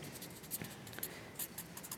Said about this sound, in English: on the popsicle stick, I'm writing the good.